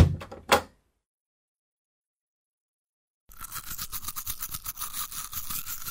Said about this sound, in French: Stop now, your teeth are clean. Il faut se brosser les dents pendant 3 minutes. Just a little more toothpaste.